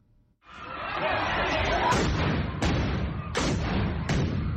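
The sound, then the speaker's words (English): Police stun grenades exploding during a violent protest in which people destroy municipal property in Tshwane, South Africa: four sharp, loud bangs ring out over a continuous, dense crowd din. “Police fire stun grenades at people destroying municipal property in the city of Tshwane.”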